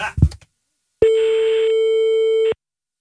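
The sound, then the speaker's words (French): Ringing tone on an outgoing telephone call: after a brief noise, one steady, even beep holds for about a second and a half, then cuts off into silence. “Très belle sonnerie.”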